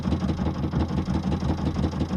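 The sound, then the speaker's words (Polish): A boat motor runs near fishing nets on the water, giving a low, even, rhythmic chugging that stays loud and steady with no other sounds. “Zaraz gasi motor.”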